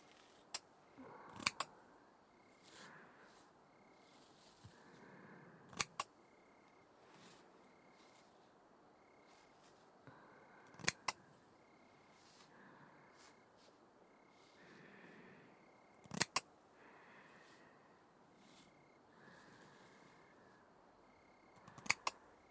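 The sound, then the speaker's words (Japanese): Scissors snip while cutting hair, with soft crisp clicks repeating throughout and louder double snips about every five seconds over a very quiet background. “チョキチョキ。結構私うまいもんでしょ。マッサージは苦手だけど髪を切るのは得意なんだから。”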